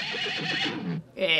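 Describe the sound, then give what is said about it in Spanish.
A horse neighs with a shrill, quavering whinny that breaks off briefly near the end, then resumes with one more short, high burst. “Reconocido. Sí, reconocido. Caballo.”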